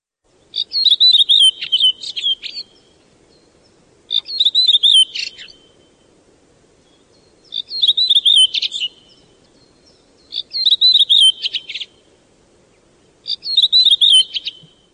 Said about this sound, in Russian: Всякий из вас, кому посчастливилось побывать ранней весной в лесу, наверное, слышал веселые звонкие песни дроздов.